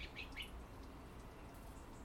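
Faint bird chirps: a few thin, high tweets near the start, then only low, steady background noise with no further clear calls.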